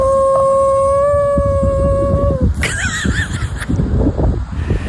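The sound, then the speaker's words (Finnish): A dog howling, a long steady high-pitched tone that breaks into wavering, warbling cries over background noise. “mä oon kuullut ennenkin tämän Hilman ulvontaa, mutta ei se ikinä kuulostunut tältä”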